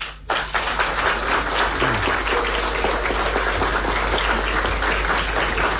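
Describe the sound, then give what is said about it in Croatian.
Audience applause welcoming a performer onto the stage: a dense, steady wash of many hands clapping that holds loud and even for the whole stretch, with no voices over it. “a sada dragi posjetioci zaplješćite živo živo”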